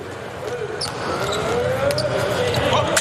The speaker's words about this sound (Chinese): 十号谢美纽克的发球